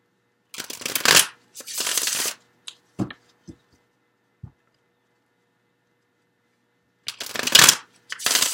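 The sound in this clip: Tarot cards are shuffled in several brisk riffling bursts, with a few soft, sharp taps as cards are drawn and laid down during a quiet pause before more shuffling resumes; no one speaks.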